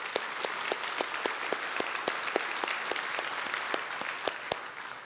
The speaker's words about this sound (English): the people in Saginaw clapping for the people who are working